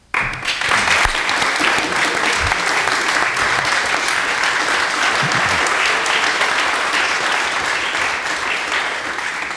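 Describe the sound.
Audience applause welcomes two guest musicians to a morning radio show in Boston, a dense, even wash of clapping that begins abruptly and holds steady at full strength for about nine seconds, with no voices.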